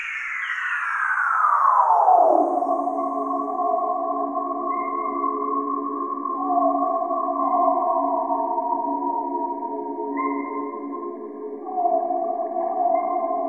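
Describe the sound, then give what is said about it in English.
Slowed-down ultrasonic sounds from a Panama forest: a bat's echolocation call sweeps steeply downward over the first two seconds, then katydid mating calls hold as steady, layered buzzing tones, with a few brief higher chirps. “Those high-pitched sounds are bats using echolocation to find insects to eat. The lower ones are katydids sending out mating calls.”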